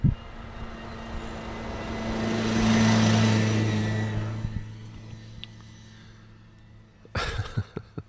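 An odd hybrid golf-cart vehicle approaching in a video game, its engine hum and rushing noise swelling to a peak, then fading, followed by a burst of clattering knocks.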